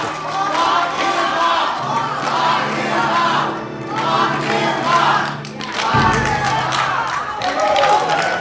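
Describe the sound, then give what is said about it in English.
Attendees of the Brookings Harbor Women's March cheer and chant "lock him up" in unison. Rhythmic group shouting rises and falls in waves, with clapping mixed into the crowd noise. “And what you're hearing is the Brookings Harbor Women's March attendees, some of them cheering and chanting, lock him up”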